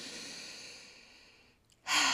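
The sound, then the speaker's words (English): A deep breath is drawn in slowly and fades away. After a brief silence, a loud, rushing exhale starts abruptly at the end. “the very first thing I want you to do is take a deep breath in”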